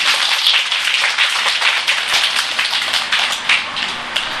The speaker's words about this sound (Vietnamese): Thì như vậy thấy rõ một cái điểm đó, vỗ tay đi.